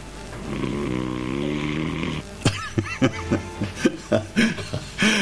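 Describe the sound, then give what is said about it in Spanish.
Snoring from a reporter who fell asleep on the other end of a phone line: a long, droning, buzzy snore, then many short, sharp snorting bursts in an uneven rhythm. “El enviado se quedó dormido del otro lado de la línea porque no le daban aire. Cuando le abrieron el micrófono se escuchaba eso que pone ahora Pachu Rosales.”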